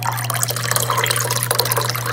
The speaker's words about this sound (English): I have my any day deep dish filled with water.